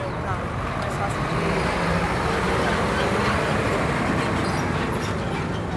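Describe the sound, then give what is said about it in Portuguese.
A truck passing on the street, its loud, steady roadway rumble and engine noise filling the whole clip without letting up. “Só espera o caminhão.”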